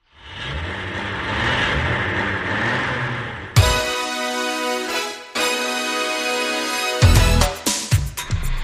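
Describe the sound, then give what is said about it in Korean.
Car engine noise as a car is started and driven off, a broad rumbling roar holding for about three and a half seconds before music takes over and plays loudly to the end. “자, 차 시동 걸었습니다.”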